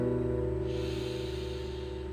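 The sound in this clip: A deep inhale taken during a cat-cow yoga exercise: a soft breathy hiss starts about a third of the way in and holds steady over a sustained low tonal drone.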